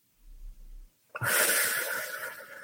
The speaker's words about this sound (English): Cyclic sighing is when we're going to inhale through our nose to the maximum that we can get to. And then right at the top, we're going to take another breath in.